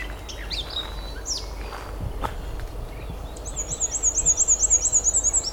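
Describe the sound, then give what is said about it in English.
Thin, high-pitched warbling of a small tree-climbing bird in a swampy area: a rapid, wavering phrase that starts partway through and grows louder toward the end, over steady low background noise. “They climb a lot like nuthatches. Very thin warble. Thin and high pitched.”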